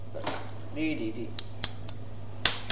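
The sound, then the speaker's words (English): A big white plastic spoon is handled while stirring, giving a few faint, sharp clicks and taps spread unevenly over a steady low hum. “It's a big white plastic spoon made of plastic.”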